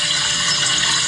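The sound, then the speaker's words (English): Water pours into a coffee pot in a steady, continuous hissing gush that stays even for the whole brief moment. “That's the sound of coffee. That's the sound of water being poured into a coffee water pot.”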